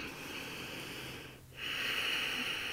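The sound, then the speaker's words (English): Ujjayi yoga breathing, heavy airflow through a deliberately constricted throat, gives a steady hissing rush that dips into a brief pause midway and then resumes more strongly. “Ujjayi breath, which is that slight sound breath. My husband calls it my Darth Vader breath because it sounds like you're kind of really heavily breathing”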